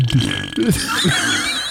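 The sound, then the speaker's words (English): A few low, croaking burps echo into a beer can, each with a hollow, ringing resonance. The burps are loud and follow one another closely. “beer can echo burps.”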